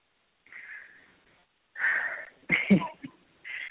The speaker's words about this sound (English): I'm really taking a deep breath in and out